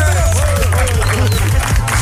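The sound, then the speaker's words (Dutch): Applause and cheering greet guests arriving in a radio studio. Loud, dense clapping runs throughout, with bright whoops and shouts rising over it. “En hier in de studio mag ik een groot applaus voor Donnie en Robert van Hemen!”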